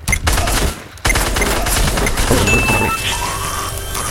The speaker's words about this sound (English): How did you shoot me like that?